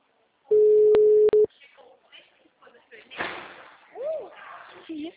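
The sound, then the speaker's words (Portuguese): A telephone call is placed with a steady, mid-pitched tone lasting about a second, broken by sharp clicks. Softer rustling and handling noises follow. “espere só um pouquinho que eu tô ligando”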